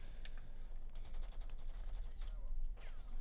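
Gunfire from big guns in a video game, many rapid shots in dense, overlapping bursts over a continuous low rumble, loud throughout.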